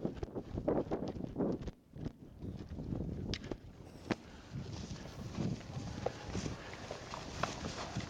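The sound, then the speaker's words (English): Hooves thud and patter as a herd of cows runs out into the field for the first time this year. The beats are many and irregular over steady wind noise. “So let's get these cows out in the field for the first time this year. Oh, try and run and not get run over.”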